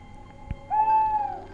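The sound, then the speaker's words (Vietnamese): Owl screeching at a house beside a bamboo clump, a single drawn-out tonal shriek with bright overtones lasting under a second, preceded by a brief soft thump. “Thế nhưng con cú mèo cứ như thi gan, lại càng chổng đít lên, chĩa vào nhà mà gào lên váng óc.”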